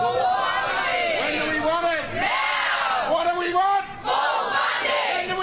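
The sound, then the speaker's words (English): Striking public school teachers and staff at Victorian public schools protest as a crowd, with loud, continuous chanting and shouting voices that swell and dip in waves without pause. “That, of course, is the sound of disgruntled teachers and other staff at Victorian public schools. They have been striking today, taking action to try and get a better deal from the Victorian government”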